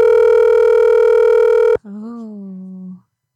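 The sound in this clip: A telephone gives off a steady, loud tone for nearly two seconds while a call is placed. The tone then cuts off abruptly and a brief voiced sound follows before silence.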